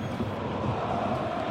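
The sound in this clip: Crowd noise from a televised football match, heard as a brief, faint, steady wash of massed voices with no distinct cheers standing out.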